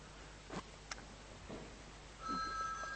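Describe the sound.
A telephone starts ringing after a near-quiet stretch broken by a few soft clicks; the steady electronic ring tone comes in late and carries on to the end.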